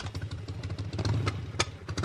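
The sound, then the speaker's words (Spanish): Motorcycle engine running as the rider travels along, a steady low, rough rumble with mechanical clatter and no pauses throughout, with no talk over it. “Voy en moto, dándome el aire en la cara.”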